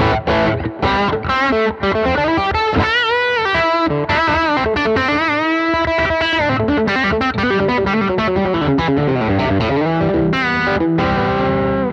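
An electric guitar runs through a Keeley Highland signature model overdrive pedal, giving a loud, continuous stream of distorted, sustained notes and chords with a thick, gritty edge.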